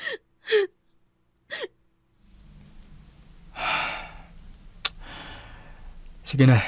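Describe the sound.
Crying heard as a few short, gasping sobs at first, then quieter breathy whimpers over low background noise, one sharp click and a final louder sob.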